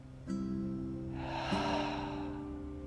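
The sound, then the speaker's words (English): A deep breath drawn in through the nose and released through the mouth, heard as a soft, airy rush lasting about a second over a steady low humming drone that continues throughout. “Take a deep breath in through your nose, more air than you think you need. Open your mouth and let it go.”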